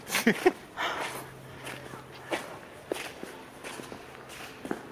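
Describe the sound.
People walking together make a few faint, irregular footsteps. A low, steady hum runs behind part of the sequence.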